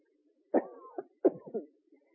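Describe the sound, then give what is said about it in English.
A person coughs in two rough, throaty bursts, each trailing off into a shorter voiced catch, fairly quiet with no talk around them. “There's my cough again.”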